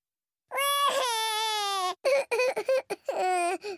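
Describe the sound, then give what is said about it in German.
A small cartoon piglet child's voiced crying: a long, loud, high wail, then a few short choppy sobs, then another sustained wail, with no other voices. “Mama und Papa Wutz kommen nachsehen, wieso Schorsch weint.”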